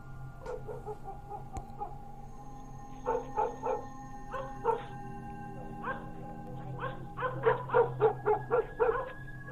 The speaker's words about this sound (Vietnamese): bỗng những con chó quê cứ chu lên từng tiếng một dứt quãng, hoặc cứ sủa nhấm nha nhấm nhặng